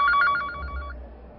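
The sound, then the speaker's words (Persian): A telephone rings with an incoming call: a rapid, trilling electronic ring pulses for just under a second and then stops, leaving a low hum. “خب اجازه بدید که من تلفن بعدی رو دریافت بکنم.”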